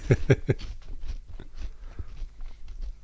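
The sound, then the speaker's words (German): Crunching bites into a Wurzener peanut flip snack: a few loud, crisp crunches come close together at the start, then softer, uneven chewing crackles continue. “Zum ersten Mal in meinem Leben esse ich jetzt einen Wurzener Erdnussflip.”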